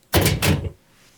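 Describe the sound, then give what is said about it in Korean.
A door is jerked open with a quick rattling clunk in two rapid bursts lasting under a second, then fading to near silence. “앳되고 낯선 목소리가 자신의 이름을 부르자 유라는 겁없이 문을 덜컥 열었다.”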